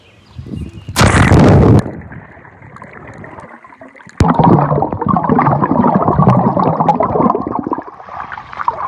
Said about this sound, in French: Donc vous aurez reconnu un plongeon dans une piscine, et cela j'ai pu le réaliser grâce à mon Apple Watch.